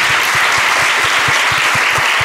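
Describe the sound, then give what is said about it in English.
Loud, steady applause from a church audience clapping in appreciation of firefighters: dense clapping continues throughout, with a regular pulse of heavier claps underneath. “All right, let's give them all a hand clap of appreciation today, please.”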